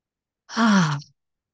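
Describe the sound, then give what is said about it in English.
A gentle breath is blown out through the mouth as a single soft, voiced sigh lasting about half a second, its tone sinking slightly as it fades. “blow out the mouth as you move. Just nice, gentle exhales to”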